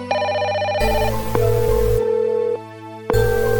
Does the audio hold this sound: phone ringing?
yes